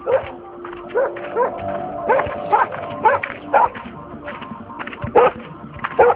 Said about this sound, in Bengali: পোষা কুকুরটা ভায়োলেন্ট হয়ে গেছে, ওকে ট্র্যাঙ্কুলাইজার দাও।